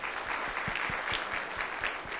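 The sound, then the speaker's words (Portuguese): An audience claps at a talk on agile methodologies, a dense, even patter of many hands that holds steady at a fairly loud level throughout, with no voices over it. “Podem bater palmas aqui para o...”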